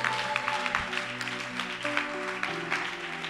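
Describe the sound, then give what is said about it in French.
Churchgoers clap in praise to God during a French sermon, a moderate, uneven patter of hands with a few louder bursts over sustained steady tones. “Oh, acclame Dieu si tu as compris.”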